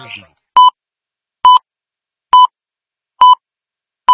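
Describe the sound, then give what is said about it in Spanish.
Hourly time signal sounding as five short, evenly spaced, clear mid-pitched electronic beeps. A brief voice is heard just before the first beep. “Inicio de hora. Inicio de hora. Este sonido alerta que ha comenzado una nueva hora.”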